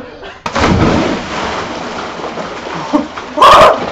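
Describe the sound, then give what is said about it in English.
Loud splashing from someone swimming, a sudden burst of churning water that settles into continuous sloshing and swells again near the end, where a voice briefly shouts over it. “No, I'm swimming! I'm a swimmer! Hey, swimming!”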